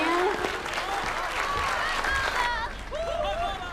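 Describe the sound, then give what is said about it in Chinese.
An audience applauds to welcome a speaker onto the stage, with steady, dense clapping throughout and a voice carrying over it. “颇有建树，让我们掌声欢迎。”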